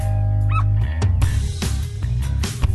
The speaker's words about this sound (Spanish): De acuerdo, ha ladrado.